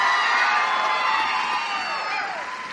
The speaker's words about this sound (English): Make a round of applause for contestants 1 through 10.